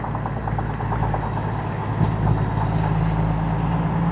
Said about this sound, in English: Dump truck. The noise reset my hearing aids.